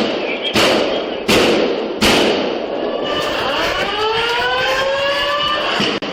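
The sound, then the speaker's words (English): Three loud, sharp gunshots crack at roughly even intervals during a school shooting in Nashville. A sustained, wavering tonal ringing follows under steady background noise. “Go. Shots fired, shots fired, shots fired, move.”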